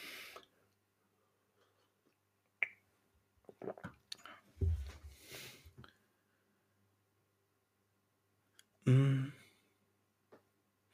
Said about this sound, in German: Jetzt nehme ich erstmal einen Schluck von meinem Kaffee.